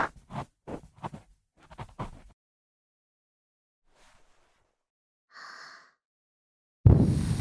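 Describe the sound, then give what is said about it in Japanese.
Breath is blown close into the ear after ear cleaning: a quick series of short, breathy puffs, then softer faint breaths, and finally a loud, sustained rush of air. “耳かき ASMR といえば、息をふーってするのもいいんだよね。結構耳掃除したし、もうふーしていいよね。”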